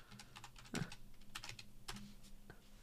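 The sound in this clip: Someone types a message on a keyboard, producing many faint, quick keystroke clicks in an uneven rhythm with a few louder taps.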